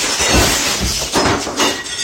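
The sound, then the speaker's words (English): Window glass breaking and shattering, shown as a few loud, harsh crashing bursts spread across the moment, each a sharp noisy impact that fades quickly. “I broke the window. Okay, quick. Glue? No. Tape? Nuh-uh. It's shattered.”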